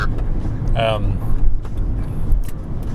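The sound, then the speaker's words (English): Low, steady road rumble of a car driving slowly in traffic on the 405 freeway, a continuous dull drone with a brief voice over it. “It is the 405. I'm driving at most 15 miles an hour at any given moment.”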